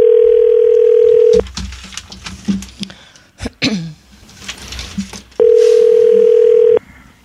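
Ringback tone on a telephone line as a call is placed: two loud, steady, low buzzing tones, each lasting more than a second, separated by a gap of scattered clicks and knocks.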